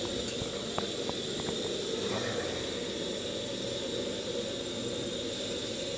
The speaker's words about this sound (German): So, und wieder rein in den Ofen. In die Esse. So, weiter rein.